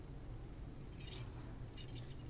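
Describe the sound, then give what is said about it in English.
Keys jangling as they are pulled out beside a car: faint, light metallic jingles in short bursts over a steady low hum, starting after a brief quiet moment. “Opening Rose's door, Jane pulls out her keys.”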